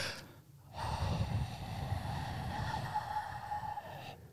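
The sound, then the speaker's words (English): Heavy breathing straight into a microphone by a small group of people: after a brief quiet start, a loud, continuous rushing of air lasts about three and a half seconds, then cuts off. “basically how we end this is we just breathe into the mic”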